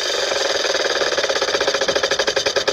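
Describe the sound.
A big spinning wheel of numbers whirs with a loud, continuous ratcheting rattle. Its rapid clicks become more distinctly pulsed toward the end.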